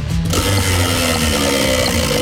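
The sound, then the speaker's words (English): A prize wheel spins with a dense, rapid run of mechanical clicks that stays loud and steady for the whole stretch. “What would you like, mate, off the wheel?”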